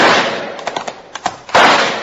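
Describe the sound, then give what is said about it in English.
Rifle shots are fired in the moonlight, with loud blasts at the start and near the end and several sharper cracks between them. “I'll try my rifle. You two head for cover. Nothing doing now. I got a rifle, too. All right, shoot for that tall tree sticking up in the moonlight.”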